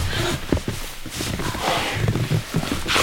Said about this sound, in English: That's a giant sequoia. Whoa. I'm walking inside.